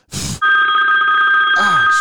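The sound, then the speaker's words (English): A mobile phone rings with a loud, steady electronic tone that holds unbroken for well over a second, just after a short burst of noise, and runs on to the end. “that's my phone ringing”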